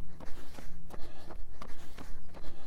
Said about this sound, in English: Yeah, running and talking uphill